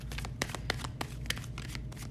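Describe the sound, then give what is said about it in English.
A tarot deck is shuffled by hand, a steady soft riffling broken by several sharper snaps of cards, over a low constant hum. “Don't want to have any jumpers coming out. They are not coming out. I've got one card out so far that jumped, so we're going to do one,”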